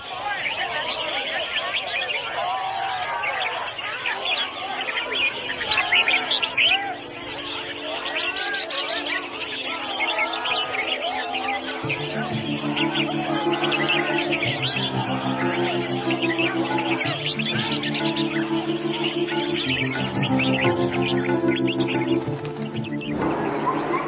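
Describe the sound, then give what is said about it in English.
Exotic birds sing at a marketplace bird singing competition, many overlapping chirps and whistles running steadily over a loud babble of crowd chatter. “In this marketplace, people have gathered to sell exotic birds, illegally captured in the rainforest, sold for the highest bid, and here, participating in a bird singing competition.”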